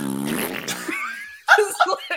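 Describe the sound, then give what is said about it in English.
A voice imitates a fart with a low, buzzing, raspberry-like sputter that lasts about a second. A person then starts talking. “How dare you fart on my set?”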